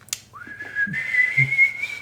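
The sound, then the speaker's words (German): A person whistles one clear note that slides upward, then holds steady and bright for over a second. A few soft low knocks sound underneath. “Naja, das kann man gut pfeifen.”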